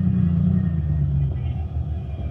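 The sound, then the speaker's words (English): A car's engine rumbles low and steady as it pulls into a parking space, holding an even drone throughout with a slight easing near the end. “We're lucky. There's a parking space. All right, pull in.”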